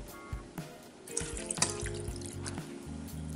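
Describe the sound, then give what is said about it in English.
Oil and water poured into a pot for a chocolate cake, with cut-up butter already in it: a soft liquid splashing and trickling over low rumbling tones, with a few light knocks. “You're going to put 1 cup of oil, 1 cup of water,”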